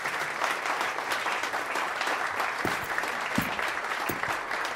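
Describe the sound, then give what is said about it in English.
Crowd applause greeting the arrival of President Rafael Trujillo, a dense, steady clapping that runs throughout with a few low thumps mixed in. “Someone could hear, and they'll certainly notice that you're not clapping.”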